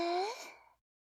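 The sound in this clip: A single voiced breath out, like a soft sigh with a faint rising tone, fades away over less than a second into silence, as part of a breathing exercise.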